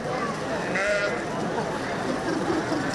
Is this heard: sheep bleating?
yes